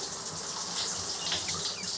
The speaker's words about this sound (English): pulls back the shower curtain, then turns off the water.